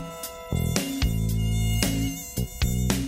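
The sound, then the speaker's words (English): A fly buzzes in a dense, steady drone for about three seconds, its tone shifting abruptly several times, with no voices. “a buzzing fly.”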